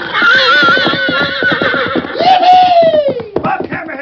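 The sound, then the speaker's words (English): A fiery red stallion neighs loudly as it is turned loose, giving a rapid, shaky whinny followed by a second long call that rises and then falls away, with quick hoof-like pulses throughout. “two cowhands who'd finally put a saddle on a fiery red stallion. Billy Landis had mounted the horse while Dan Reed held the blindfold and the bridle”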